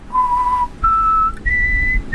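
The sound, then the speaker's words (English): Someone whistles three clear, sustained notes, each pitched higher than the one before, with short breaks between them. The whistling is fairly loud and heard alone, with no talking. “Was it whistling? Was it? Yeah, I've got a degree in whistling.”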